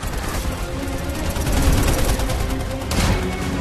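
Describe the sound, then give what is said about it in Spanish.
Machine guns fire from parachuting agents during a mid-air scene, with sustained, dense rapid bursts of gunfire crackling over a low rumble and a sharper burst near the end. “Los agentes saltan en paracaídas y abren fuego con sus ametralladoras.”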